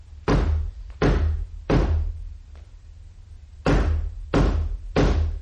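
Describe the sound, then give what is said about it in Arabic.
Heavy knocking on the door of a house: six loud, solid blows in two groups of three, separated by a longer pause. “إني قد أكسرت دق الباب فما أجابني أحد.”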